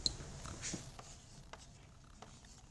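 Faint scratching of writing on a board during a lecture: a few light, brief strokes against a quiet background.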